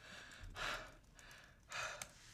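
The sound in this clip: Someone out of breath after running gasps heavily, with two loud, deep, rasping breaths separated by quieter panting.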